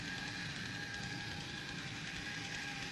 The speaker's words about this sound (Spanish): Estoy con mi tren. ¿Te gusta? Lo acabo de comprar.